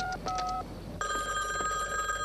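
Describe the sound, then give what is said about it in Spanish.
A telephone rings in a house after a call is placed from a phone booth. A few short tonal beeps come first, then a bright, steady electronic ringing tone runs to the end. “Julie entra en una cabina telefónica y marca. Kevin contesta en casa de Julie.”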